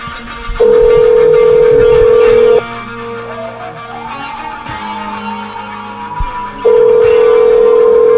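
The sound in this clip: Ringback tone of an outgoing phone call to a mother, with two long, steady mid-pitched tones of about two seconds each separated by a pause, loud over quieter background sound.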